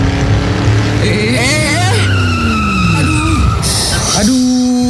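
Tires squealing as a car speeds and skids on a toll road: a loud, sustained screech with a wavering, sliding pitch over the rumble of the moving car.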